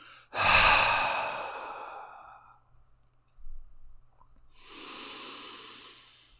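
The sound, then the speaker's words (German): A deep breath is drawn in with a loud, airy rush, then held through a stretch of near silence, before being let out in a long, softer breathy exhale. No one speaks. “Tief einatmen und halten, halten, halten, halten und ausatmen.”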